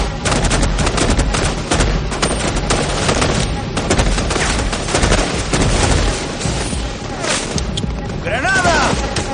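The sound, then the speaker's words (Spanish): Sustained gunfire as a SEAL team advances in formation in a war action film, with dense, continuous, overlapping shots and heavy booms filling the whole stretch without a pause. “El equipo SEAL avanza en formación sin dejar de disparar.”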